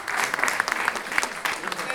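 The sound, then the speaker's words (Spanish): Applause from an audience of students at a masterclass, a quick patter of many clapping hands mixed with sharper individual claps, of moderate loudness, with voices talking over it. “Venga, aplausos a la placa, chicos.”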